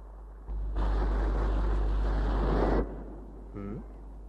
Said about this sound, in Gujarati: પાણીના મોજા કેવા ફૂફાડા મારતા ધસમસતા કિનારા સાથે પછડાય છે. અને ફુવારાની જેમ કેટલા ઊંચા ઉછળે છે.